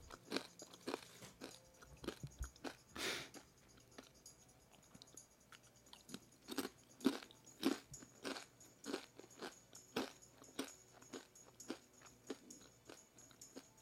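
Someone eats crunchy Don Tacos corn chips, producing many crisp bites and crackling chews in irregular bursts. Sharper crunches stand out among quieter munching, with no talk.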